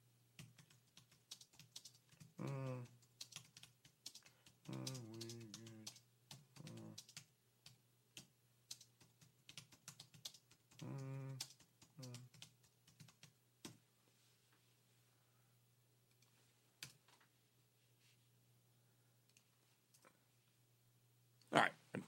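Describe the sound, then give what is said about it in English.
Typing a message on a computer keyboard: many quiet key clicks in irregular bursts, with a voice speaking briefly at times and a sharper click at the end. “Hang on, let me type this message here.”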